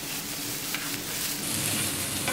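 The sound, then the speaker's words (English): Chopped green, yellow and red peppers seasoned with salt and pepper sizzle as they sauté in a pan, a soft, continuous frying hiss that stays even with no breaks. “Chop up some green, yellow and red peppers and add them to the pan. Season with salt and pepper and sauté for 2 minutes.”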